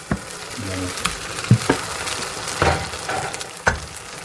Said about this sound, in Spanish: como ya tenemos el aceite caliente y está bien extendido, vamos a echarle la mezcla.